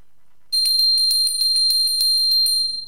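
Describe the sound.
A bell rung for the first time, after a brief silence, as a rapid run of many bright metallic strokes over a sustained high ringing tone that carries steadily to the end.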